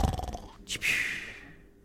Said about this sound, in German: Und der Dino schläft auch, leicht schnarchend.